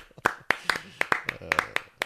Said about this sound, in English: Don't clap. Stop clapping. Please clap.